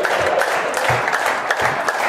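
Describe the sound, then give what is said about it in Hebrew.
Audience applause at a religious lesson: a loud, dense wash of many hands clapping at once, steady and unbroken from start to finish. “איפה מחיאות הכפיים לעם ישראל?”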